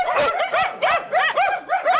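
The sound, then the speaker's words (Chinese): Several dogs bark in a rapid, steady string of high, yelping barks that follow one another without pause and stay loud throughout. “有狗啊。这么多狗，有人吗？”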